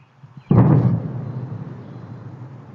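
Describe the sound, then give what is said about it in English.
A sonic boom from F-16 fighter jets strikes as one sudden deep blast, then rolls off into a long, slowly fading rumble with no voices. “A sonic boom rattled homes across the region yesterday. It came from F-16 jets, which were sent to intercept a small plane that didn't respond to questions from air traffic control.”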